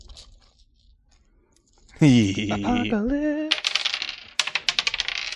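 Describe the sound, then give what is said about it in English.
Dice shaken out of a dice bag clatter in quick, uneven clicks and rattles after a spell of speech, with the tumbling growing sharper toward the end. “I'm going to use this die. I'm going to take my die sack.”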